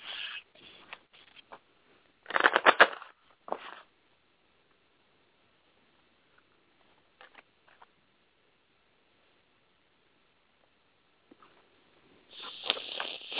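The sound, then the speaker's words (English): Angel oracle cards being shuffled and pulled for a romance reading make a few soft, brief bursts of rustling and patter. Long quiet gaps separate them, and a longer rustle comes at the end. “I'm going to pull through three romance cards and see what the angels have to say about romance and as it relates to where you are in your life.”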